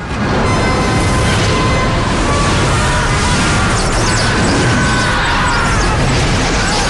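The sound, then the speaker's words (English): Dragon fireballs strike a market square, sending people and debris flying, in a dense, loud roar of blasts and crashing rubble that rumbles without a break. “Fireballs hit the market square, sending people and debris flying.”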